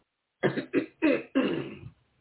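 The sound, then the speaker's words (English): Throat clearing from a person, four rough, throaty bursts in quick succession, the last one longest and trailing off, fairly loud with no talk around them. “I'm sorry, if I keep clearing my throat, you know why.”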